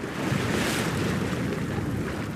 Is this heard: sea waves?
yes